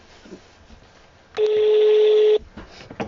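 Telephone dialing tone on a phone ringing through yet another call attempt: a single steady electronic beep, about one second long, stands out sharply over faint background noise.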